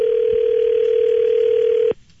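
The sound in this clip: A telephone dial tone as a call is being placed, a loud, steady single-pitched hum that holds for about two seconds before cutting off abruptly. Nobody talks.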